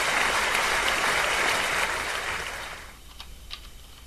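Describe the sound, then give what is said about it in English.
Audience applause, a dense and steady burst of clapping that holds for about two and a half seconds and then fades away, leaving only faint scattered clicks at the end. “Well, the audience applauds your effort for broadcasting from a vehicle.”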